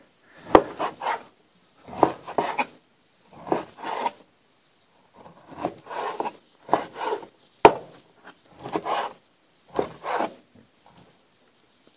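A knife cuts meat into thin pieces for a large mixing bowl, giving many irregular clusters of crisp slicing and tapping strokes at a steady working pace, moderately loud with no talk.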